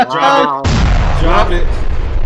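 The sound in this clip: A loud bomb explosion sound effect bursts in abruptly right after a brief voice, then rolls on as a long, heavy rumble with crackling noise on top.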